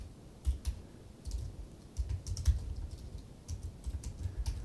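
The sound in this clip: Computer keyboard typing comes in soft, irregular bursts of clicks and taps. Short pauses separate the runs of keystrokes, and the overall level stays fairly faint.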